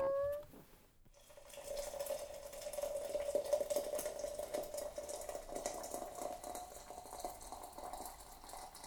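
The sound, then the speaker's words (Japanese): Boiled water poured into a warmed teapot holding tea leaves, a steady, faint splashing stream with a soft ringing tone that runs for several seconds after a brief click. “温めたポットに茶葉を入れて、沸かしたお湯を注ぐと”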